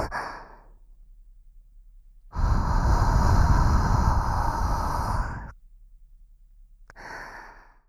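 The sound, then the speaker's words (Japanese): A deep breath in and out: one long, loud, sighing exhale that lasts about three seconds, with softer, brief breaths before and after it. No one speaks. “大きく息 息を吸って、吐くよ。”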